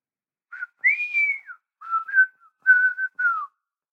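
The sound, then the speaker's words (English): A person whistles a tune while preparing beef carpaccio in a kitchen: several clear, bright melodic phrases, one long sustained note early on, then shorter gliding and wavering notes, heard alone with no talk. “I set down my knife, but keep whistling.”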